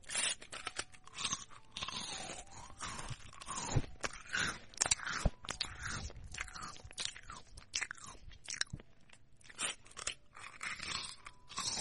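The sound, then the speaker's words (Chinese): Crunching of biscuits being bitten and chewed: many sharp, irregular crunches in quick bursts, fairly faint throughout. “趁哥哥不注意，把他桌子上的饼干吃掉。”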